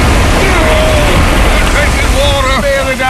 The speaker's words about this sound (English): We'll be sunk to the bottom after one wave. And here they come. Brace yourselves.